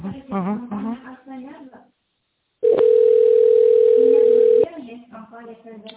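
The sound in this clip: A telephone tone sounds while a call is being connected: a steady, single-pitch tone of about two seconds, set between stretches of talk before and after.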